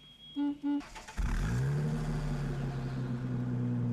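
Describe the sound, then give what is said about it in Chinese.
A car engine starts up after two short electronic beeps, then settles into a steady, loud running hum with a slight rise in pitch as it gets going. “于是便高高兴兴地开车拉着杜任之直奔刘厚同在联谊社的住处。”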